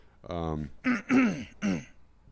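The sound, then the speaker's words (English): A person clears their throat: a drawn-out, low, voiced rasp followed by a few short, harsh, throaty bursts, fairly loud, with no other sounds. “you just broke the silence by doing your throat clear.”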